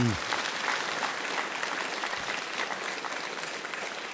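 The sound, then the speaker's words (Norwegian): Sustained audience applause from a summer conference crowd honouring a Christian TV channel's staff, a dense, even wash of clapping that holds steady and loud throughout. “Og vi får gi de alle sammen en skikkelig, skikkelig god klapp.”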